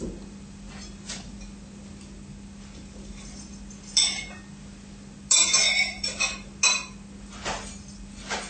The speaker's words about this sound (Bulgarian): Изсипваме овесените ядки, суровия слънчоглед, лука,